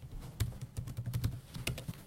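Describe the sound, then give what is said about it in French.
Keystrokes on a computer keyboard as an extension name is entered into a software search field: many quick, irregular clicks at moderate level, with no talk. “Donc on va dans Get Extensions, on tape Voilà. T3 Kit.”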